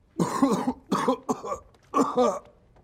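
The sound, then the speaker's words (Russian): Harsh, voiced coughing from a person, a few rough bursts with short pauses between them, loud and alone without other talk. “Когда я выбрал карточку, у вас начался кашель.”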